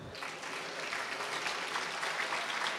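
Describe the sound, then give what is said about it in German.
Audience applause at an entrepreneurship summit startup award ceremony in Berlin: dense, steady clapping that holds at an even level for the whole stretch, with no voices standing out. “Okay, also, das ist dein Applaus.”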